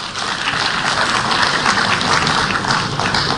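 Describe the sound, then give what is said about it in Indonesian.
An audience at a formal corporate address applauds the supervisory board. Many hands clap in a dense, steady wash that holds at an even level throughout. “Bapak Ibu, mari kita berikan aplaus kepada Dewan Pengawas kita.”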